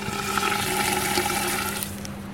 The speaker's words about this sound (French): Donc là, vous introduisez les ailes dans le mortier ? Oui, dans un mortier en verre. Ensuite, on met de l'azote liquide.